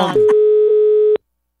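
Telephone line tone while a call is being placed: one steady, unbroken mid-pitched tone holds for about a second, then cuts off abruptly. A short burst of noise comes just before it.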